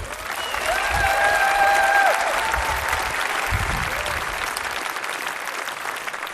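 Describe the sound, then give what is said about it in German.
Audience applause at a poetry slam: sustained, dense clapping from a crowd that holds steady and loud for the whole stretch, tapering only slightly toward the end. “Deswegen einen tosenden Applaus für Fabi”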